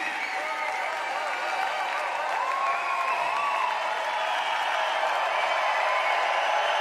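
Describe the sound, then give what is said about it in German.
Audience applause at a music festival, a dense, continuous wash of clapping mixed with crowd noise, steady and even in loudness throughout. “Danke für eure herzliche Applaudiererei, falls es dieses Wort gibt.”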